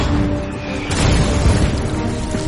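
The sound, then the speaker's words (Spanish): German artillery shells explode across a forest battle line. A deep rumbling roar swells, with a heavier burst about a third of the way in, then keeps booming. “La artillería alemana explota por todas partes.”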